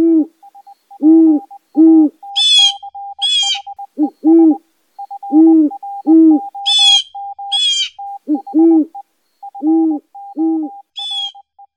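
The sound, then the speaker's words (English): Snowy owl hooting: many low, deep hoots in pairs and short groups, loud and clear, interleaved with rapid stuttering higher notes and a few brief shrill high calls. “one of its primary predators, the snowy owl”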